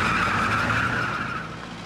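Tyres squeal and skid as a car drives off, a steady high-pitched screech over engine rumble that fades gradually across about two seconds.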